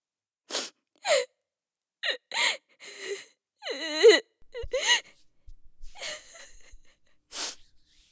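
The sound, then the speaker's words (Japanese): A woman crying in many uneven sobbing bursts, with gasping breaths and a drawn-out, wavering wail near the middle, separated by brief pauses. “あらら、泣いちゃったの？”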